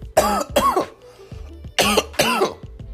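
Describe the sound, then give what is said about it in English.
A person coughs in hard, throaty bursts, feeling a little choked up. There are four loud coughs in two close pairs, with faint throat noises in the gap between them and no talk. “already coughing shit. Excuse me, y'all. I got a little choked up”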